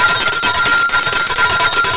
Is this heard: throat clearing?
no